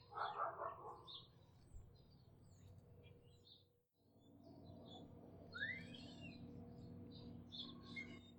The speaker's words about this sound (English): The starlings are really pretty vocally skilled birds.